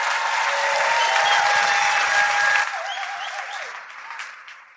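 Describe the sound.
Audience applause fills a live show at Revolution Hall in Portland: dense, steady clapping holds strong for a couple of seconds, then thins and fades away.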